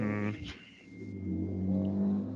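A car engine revs while racing during a police chase, with a low harmonic drone, a brief surge of revving, then a steadier, louder rumble, all at a fairly quiet level.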